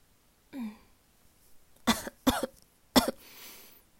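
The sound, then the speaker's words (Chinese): A person coughs. A soft low sound comes first, then three sharp, rough coughs in quick succession, moderately loud against near silence. “刚刚不咳嗽，现在有咳嗽了”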